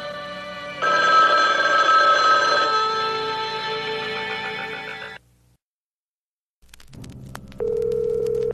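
An electronic telephone ring sounds as a steady, bright trill for about four seconds, then cuts to silence. A quieter tone follows, and then a sustained, higher beep.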